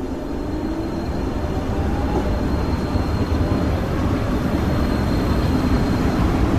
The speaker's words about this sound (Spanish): El tren llega.